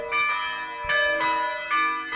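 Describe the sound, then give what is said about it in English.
Church bells toll at a memorial for people who died in a red mud accident, with three loud, resonant strikes at an even, unhurried pace, each ringing on and overlapping the next. “Church bells rang Tuesday for Angelka and 9 others who passed away.”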